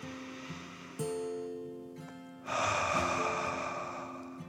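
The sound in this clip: A slow, deep calming breath in and out, taken during a children's relaxation story. Two soft breathy rushes, the second louder and longer, play over gentle sustained musical tones.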